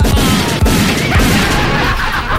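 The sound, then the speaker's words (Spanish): Gunshot sound effects: a rapid series of loud, sharp bangs and crashes repeating over a dense, noisy bed. “incluso para que ambientemos la cosa, póngale unos buenos balazos nomás.”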